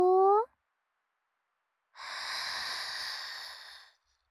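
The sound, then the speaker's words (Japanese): A deep, slow breath is drawn in, a steady airy hiss lasting about two seconds, after a brief voiced sound at the start. “それじゃあニーニー、息ば吸おうか。大きくゆるって吸よ”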